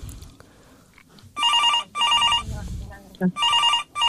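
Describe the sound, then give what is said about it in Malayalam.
Telephone ringing for an incoming call: three bright, warbling ring bursts of equal length, each about half a second, separated by short pauses, with faint talk around them. “നമുക്കൊരു call ഉണ്ട് തോന്നുന്നു”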